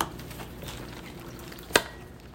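Quiet kitchen cooking sounds as a Manoomin and venison casserole is prepared with chicken stock, sautéed vegetables and meat: a faint simmering, liquid hiss throughout, broken by one sharp click near the end.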